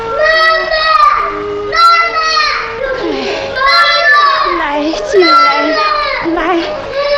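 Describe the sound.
A young child crying hard in several loud, wailing bursts with short breaks between them. The high, strained sobbing rises and falls from one burst to the next.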